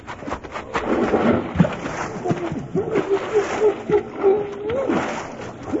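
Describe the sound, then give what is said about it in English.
A person takes a running jump into cold water, making a sharp splash, then a voice cries out in drawn-out, wavering tones over churning water. “I'm going to take me a long run and jump and get wet all at one time. All right, let's go. Here I go.”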